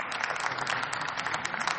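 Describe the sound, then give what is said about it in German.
Applause in a parliamentary chamber as a member begins a speech, a fairly soft but dense and steady patter of many hands clapping without a break. “Ja, der Beifall geht alles von der Zeit ab.”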